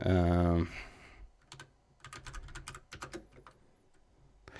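Computer keyboard typing during a shooting video game: quick, irregular clicks of keys pressed in short bursts, moderately loud, with pauses between groups.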